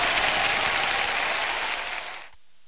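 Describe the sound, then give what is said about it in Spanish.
An audience gives a steady burst of applause that holds evenly, then tapers and drops off sharply near the end, leaving near silence. “Un aplauso.”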